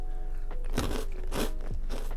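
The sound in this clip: Crisp crunching from someone biting into and chewing a snack, with three loud crunches at a steady pace and a softer one before them, over a faint steady hum, with no talk.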